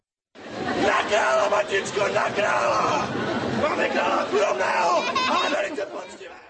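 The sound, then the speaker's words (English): A crowd cries out in favour of King George of Poděbrady at a traditional folk ceremony, a costumed ride on horses. The loud, overlapping shouts swell and hold for several seconds, then fade. “A cry there in favour of the king Jiří of Poděbrady, or George of Poděbrady.”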